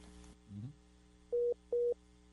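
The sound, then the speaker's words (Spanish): A telephone busy tone after a dropped call: two short, steady, mid-pitched beeps with a brief gap between them, following a faint click and some low noise at the start. “Creo que hemos perdido la llamada.”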